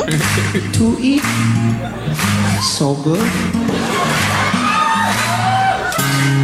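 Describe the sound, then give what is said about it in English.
Audience clapping mixed with whoops and shouts from a crowd, rising around a performer chanting a rhyme and continuing loudly beneath his voice. “That clapping's messing my head up, man. I appreciate it, but I was trying to think of the next line.”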